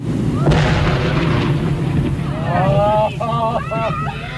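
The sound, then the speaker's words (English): A heavy blast of dynamite, about half a ton in roughly 20 cases, detonated to blow apart a dead whale. One sudden loud burst rolls into a sustained rumble, and raised voices follow in reaction. “Our cameras stopped rolling immediately after the blast.”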